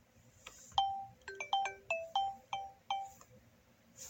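An old, obsolete phone ringing with a faint melodic ringtone: a quick, uneven run of bright, chirping high notes, each dropping slightly, heard alone without voices.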